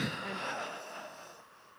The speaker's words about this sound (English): I really wasn't expecting the wheezing for air and the gasping.